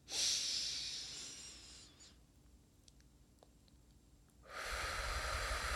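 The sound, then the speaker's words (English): A deep breath during a meditation for pain: a long, airy, hissing breath, then a quiet pause, then a second strong breath that continues to the end. “Take a deep breath.”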